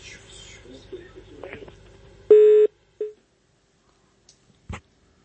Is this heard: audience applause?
no